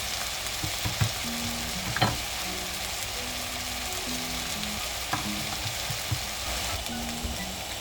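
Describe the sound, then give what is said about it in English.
Diced potatoes fry in a pan with slightly too much oil while cooking for corned beef hash. A steady, quiet crackling sizzle is broken by a few sharper clicks and pops, likely from stirring, with no talk. “And I just kind of cook the potatoes all the way through. So I'm gonna. I kind of put a little bit too much oil. It'll just burn off.”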